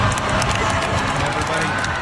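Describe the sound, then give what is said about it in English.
A graduation crowd at Texas Tech University cheers, whoops and applauds for a service dog walking across the stage with her owner in matching gowns, a dense, loud, continuous roar of voices and clapping. “a service dog named Sadie received her own diploma. And, of course, the crowd went crazy.”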